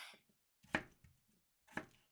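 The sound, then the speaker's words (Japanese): Knife cutting potatoes into large pieces: two sharp, distinct chops about a second apart, faint and alone, after a softer cutting sound at the start. “じゃがいもって大きめに切ってみるとちょっとおしゃれな感じがしない？だからお姉ちゃん、最近は少し大きめに切ることにしてるんだ。”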